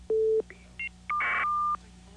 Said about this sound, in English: Let's take the phone call.